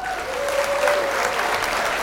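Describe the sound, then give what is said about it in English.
Audience applause welcoming a guest, a steady, fairly loud wash of clapping that fills the whole moment without a break and with no single voice standing out. “round of applause.”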